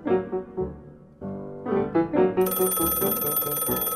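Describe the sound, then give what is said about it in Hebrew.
A landline telephone rings on a moshav in the Lachish region, a loud, sustained rattling bell that enters partway through over harmonic musical tones and continues to the end. “יום אחד צלצל הטלפון הנייח במושב עוצם בחבל לכיש.”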